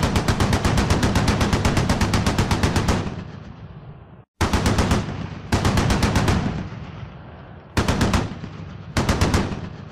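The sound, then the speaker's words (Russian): Short machine gun bursts fired from below behind a wall during a battle: five loud, rapid rattling volleys, the first the longest, each ending in a fading tail before the next burst. “Из-за стены снизу раздались короткие пулеметные очереди.”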